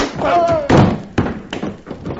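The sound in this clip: A punch to the stomach in a fistfight, done as a radio drama effect: a few dull, heavy thuds mixed with strained vocal sounds.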